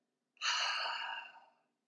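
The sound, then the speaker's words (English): A single long breath exhaled through the mouth, as if fogging a mirror, during a guided breathing exercise. It is a soft, breathy whoosh of about a second that swells quickly and then fades out, alone with no voices. “When you breathe out the shofar blasts, breathe out of your mouth like you're fogging a mirror.”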